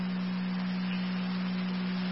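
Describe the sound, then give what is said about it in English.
A county EMS radio dispatch alert tone sounds as a steady, low-pitched pure tone held unbroken and at an even level for the whole stretch. “to Ransomville, Second Center Tones, County EMS, to start cold to the area, 3509 Ransomville Road, Heritage Manor, between New Road and Braley Road”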